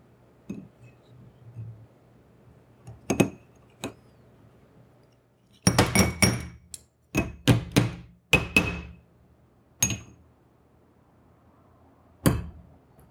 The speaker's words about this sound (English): And now, for the scraping.